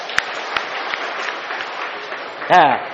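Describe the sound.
Audience applause at a Buddhist dharma talk forms a steady, even wash of clapping that carries through. A short voiced sound breaks in near the end.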